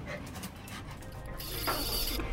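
A dog whimpering faintly, with soft, high-pitched whines over a steady background hiss.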